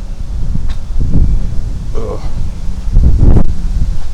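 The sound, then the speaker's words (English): Wind buffeting a microphone outdoors, a low, rough rumbling roar that swells in gusts, with the strongest surges near the middle and toward the end. “Let me get into where there's no wind, aka my garage.”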